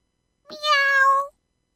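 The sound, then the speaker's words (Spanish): A single loud cat meow, clear and tonal, rising into a sustained cry of under a second, then stopping, with silence before and after. “Repitió el gato. ¡Miau, marra, miau!”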